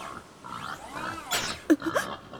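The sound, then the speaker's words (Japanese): Wild boar grunting: a few short, low, rough grunts and snorts come near the end over a quiet background, moderately loud with no speech. “あれは我が天敵のイノシシさん。いつも何もしていないのに妙に攻撃的なんですよね。”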